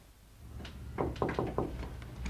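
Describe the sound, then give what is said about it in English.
Knocking on a bedroom door from the hallway: a few soft, hesitant knocks come in quick succession after a brief quiet pause, faint over low background noise. “She crosses to Zoe's room and hesitates for a moment before knocking on the door.”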